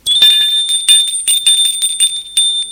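A doorbell rings at a house door in the evening, a bright metallic bell struck many times in quick succession. Its sustained, piercing tone rings loud and unbroken for a few seconds with no voices.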